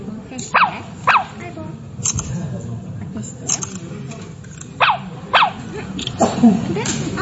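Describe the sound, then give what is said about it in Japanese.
A robot dog barking, with several short, high yipping electronic barks in uneven bursts over continuous talk from people nearby. “アイボという犬です。本当に人間に声に反応するんですね。”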